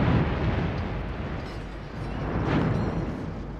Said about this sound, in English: Escape pod targeted, firing sequence engaged, and firing!